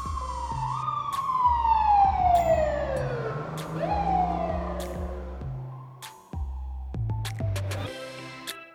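A fire engine siren sound effect wails loudly, with long sweeping pitch glides that fall, then rise sharply and fall again, over a steady low pulsing background.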